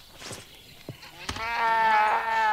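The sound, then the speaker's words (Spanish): A sheep bleats in one long, wavering, nasal cry that follows a few short taps and clicks. “¡Oveja!”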